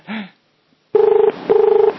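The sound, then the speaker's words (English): Ringing tone of an outgoing telephone call, two steady buzzing pulses of equal length with a short gap between them, preceded by a brief softer sound. “Let's get him on the phone.”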